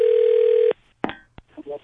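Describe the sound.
Telephone dialing for a prank call: a steady dial tone cuts off, followed by a couple of sharp clicks and a short beep, then a voice begins talking.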